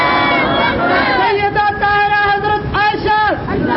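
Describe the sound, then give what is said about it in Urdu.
A crowd at a religious sermon gathering answers a takbir call, many voices shouting Allahu Akbar together in loud, drawn-out unison syllables that swell and bend in pitch as they are held. “نعرہ تکبیر”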